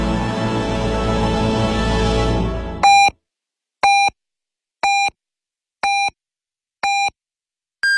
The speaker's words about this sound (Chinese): 现在是北京时间6点整。